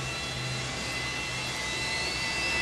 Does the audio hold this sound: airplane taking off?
yes